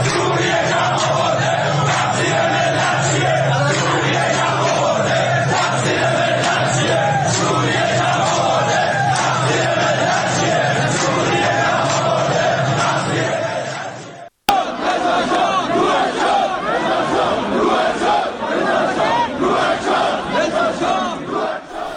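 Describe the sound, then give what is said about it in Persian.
Protest crowd in Iran chanting slogans: a loud massed roar of many voices sustains for the whole stretch, cuts off for a moment about two-thirds through, then resumes just as strong. “یا شعارهایی میدن علیه کمک های جمهوری اسلامی به گروه های شبه نظامی در فلسطین و لبنان یا خود حکومت سوریه”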